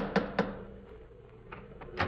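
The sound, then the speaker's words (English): Knocking on a front door with its knocker, the door covered in icicles: two sharp raps close together, then a pause and a couple more knocks, the last a little louder. “Well, here we are once again, about to lift the knocker of Dr. Watson's familiar front door.”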